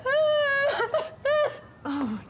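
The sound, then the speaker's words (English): A woman sobbing hard: high, wavering wails broken into a few short bursts with catches of breath between them, the last cry dropping lower in pitch. “She's sobbing to Steph”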